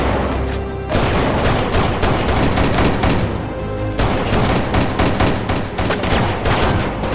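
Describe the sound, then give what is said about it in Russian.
Gunfire in a film shootout: men open fire on a man stepping out of a car, and he shoots back from beside it. Dense, loud volleys of rapid shots surge twice and then continue in quick succession, with no voices. “Люди Фрэнкса открывают огонь на выходящего из машины Сайкса. Сайкс, стоя возле машины, отстреливается.”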